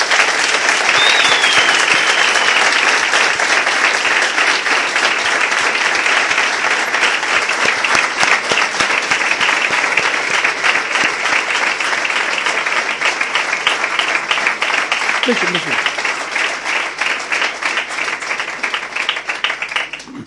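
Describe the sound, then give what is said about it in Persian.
Audience applauds in honour of a girl's father, a long, dense wash of clapping from many hands that holds steady and loud before easing slightly near the end. “به افتخار باباش دست بزنیم.”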